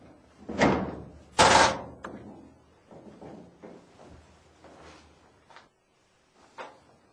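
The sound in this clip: A house door is opened and someone enters. Two loud clattering knocks come first, followed by quieter shuffling, rustling and handling sounds, and a soft click near the end.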